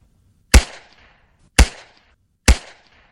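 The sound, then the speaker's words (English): Three sharp bangs from a 3D-printed plastic gun, the first working one of its kind, firing evenly spaced about a second apart. Each shot is loud and abrupt with a brief fading tail, and silence falls between them. “That's the sound of the world's first working 3D gun firing.”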